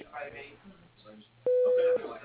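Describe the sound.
A voicemail beep after a recorded spoken greeting: a single loud, steady electronic tone lasting about half a second, which cuts in after the talk, with faint speech continuing afterward.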